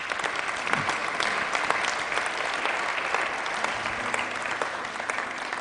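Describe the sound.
Applause from an audience at a Christian meeting welcoming a speaker, a dense, steady clatter of many clapping hands that holds at an even loudness throughout.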